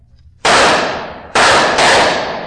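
Three loud gunshots ring out in a radio drama, fired at barrels. Each is a sharp, sudden crack with a long noisy decay; the second and third come close together after a short pause.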